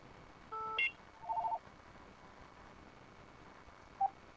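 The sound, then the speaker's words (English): Telephone tones on a radio call-in line: two short bursts of electronic ringing tones early on, then a single brief beep near the end, all faint over hiss. “Just tell me your answer when the ringing stops.”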